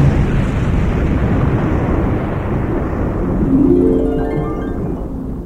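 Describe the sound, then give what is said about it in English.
A sci-fi explosion effect of a space station blowing up: a loud, sustained roaring rumble that fills the whole clip, with a thin tonal whine rising through it near the end before the roar eases slightly. “The rebel ships raced into hyperspace, just as the space station exploded in a tremendous flash.”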